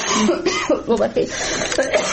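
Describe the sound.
A person coughs in several short, harsh bursts, with voiced throat sounds between them, spread over about two seconds.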